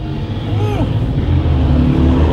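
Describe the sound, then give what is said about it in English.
A group of motorcycles roars past while one rider does a burnout, giving a continuous loud engine rumble with a deep low drone that holds steady through the whole clip. “That was all kinds of bikes. That was a bunch of bikes and that guy's like burning out right there.”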